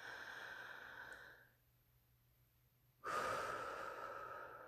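A deep breath drawn in with a steady airy hiss, then a second or so of near silence, followed by a louder, fuller breath blown out that slowly tapers off.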